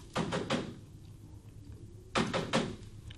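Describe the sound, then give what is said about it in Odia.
Knuckles rap on a closed window in two bursts of three quick knocks, separated by a pause of about a second and a half. Each rap is firm and hollow. “ଝରକା ବାଡ଼େଇବି? ହଁ ବାଡ଼େଇବି।”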